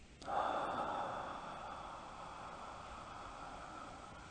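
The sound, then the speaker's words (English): A deep breath in during a guided yoga relaxation practice: a soft, airy rush of inhaled air that starts abruptly, then slowly fades and trails off over several seconds. “And we go ahead and take a deep breath in.”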